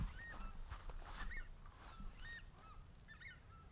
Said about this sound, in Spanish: ¿Qué es eso? Chajá.